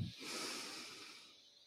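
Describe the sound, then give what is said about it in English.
A deep cleansing breath drawn in: a soft, airy hiss that swells quickly and then slowly tapers away, faint and alone. “So go ahead and take a big cleansing breath in”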